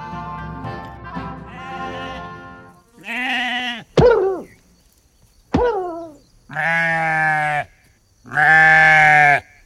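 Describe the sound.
A sheep bleats about five times in a row, loud wavering cries. Some bleats begin with a sharp onset and fall in pitch, and the last two are longer and steadier.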